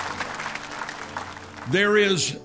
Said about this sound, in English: Somebody give the Lord a clap offering, would you?